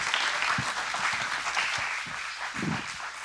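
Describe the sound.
A crowd applauds to welcome a speaker home to the stage. The clapping is dense and steady and stays fairly loud, filling the whole moment without a break.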